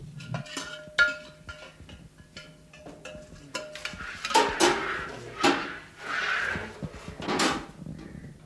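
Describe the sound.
Kitchen clatter while leafy greens and vegetables are cut, with many sharp knocks, clinks and scrapes of utensils and dishes in an irregular pattern, some louder strikes standing out near the middle and end, with no talk.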